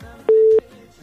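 A single steady mid-pitched telephone line tone sounds as a radio caller is connected, holding evenly for about a third of a second and then cutting off cleanly above a faint background.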